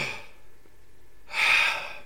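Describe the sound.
A person takes a deep breath. A faint, breathy hiss comes first, then a louder airy rush of breath lasting about half a second, with no talking.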